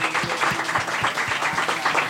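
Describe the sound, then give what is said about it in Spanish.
Audience applause for a group of young men: thick, steady clapping from many hands, with soft low thumps pulsing regularly beneath it. “yo creo que un aplauso para estos muchachos. ¡Un aplauso!”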